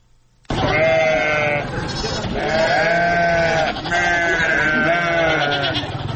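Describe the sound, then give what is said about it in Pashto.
Goats of the Indian Gulabi breed bleat on a small farm in Kandahar's Panjwai district, where forty are kept. Loud, nasal bleats overlap and run almost without pause in a few long, wavering calls. “د کندهار پټن ولسوالۍ کې د بزو یا وزو په دې کوچني فارم کې د ګلابي په نوم هندوستاني نسل څلوېښت بزې ساتل کیږي.”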